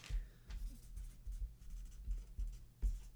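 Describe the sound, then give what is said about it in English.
Pen scratching on paper as a nickname is quickly written down: soft, faint, uneven strokes and light scrapes in a steady run. “That's the sound of me writing.”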